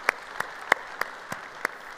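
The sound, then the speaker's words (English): Applause from an audience at a church service: six sharp, evenly spaced claps about a third of a second apart, fairly faint over a low background hiss. “So if you would put your hands together and welcome them to our conversation around God's Word today.”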